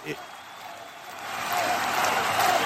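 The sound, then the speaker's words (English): Artificial-sounding crowd chanting sound effect, a dense wash of massed voices that starts softly and swells louder about halfway through, then holds steady to the end. “Well, you got it right. It is a crowd. Okay. It is. Now, a crowd. It's not a real crowd, is it? It sounds fake.”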